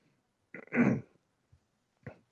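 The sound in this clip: A person clears phlegm from the throat with one strong, rasping clear, followed by a couple of shorter, fainter throaty catches.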